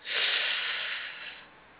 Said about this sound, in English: One more time. Inhale.